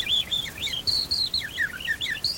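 A person imitates birdsong with quick, high, chirping whistles. Short trilled notes repeat in bursts over a faint hiss, with no talking.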